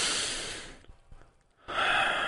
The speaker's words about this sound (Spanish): Vas a respirar profundamente.